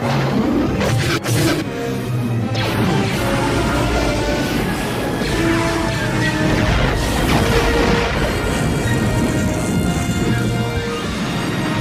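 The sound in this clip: An ion cannon fires at rebel ships in a science-fiction space battle, with deep booming blasts over a dense, continuous rumbling roar and low droning tones throughout.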